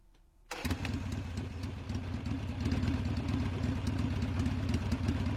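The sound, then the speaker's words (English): A Harley motorcycle engine starts abruptly out of a quiet background, then revs as the bike takes off, a rough, throbbing rumble that grows slightly louder and stays steady to the end. “It sounds like a Harley revving and taking off.”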